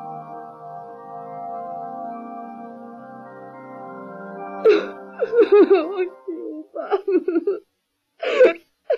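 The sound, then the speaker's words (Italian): A young girl, a character in an Italian-dubbed animated film, cries: after a stretch of steady sustained tones, a few halting, breathy sobs and whimpers break out in uneven bursts. “Nausicaa, su, non piangere.”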